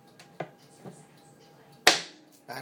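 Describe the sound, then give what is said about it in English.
Knife cutting food into fourths, a few faint, sharp knocks spaced irregularly, the loudest and crispest coming near the end. “action that you hear going, and I'm cutting these in, in fourths, basically.”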